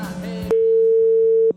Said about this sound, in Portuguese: Deixa eu tentar ligar pra esse cara, vai.